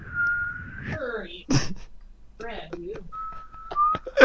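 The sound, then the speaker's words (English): A person whistles steady, sustained tones imitating telephone dial tones: a long held note, then after a break of other vocal sounds, a second held note with a slight step in pitch. Voice sounds are heard between the whistles. “Whistling dial tones at him.”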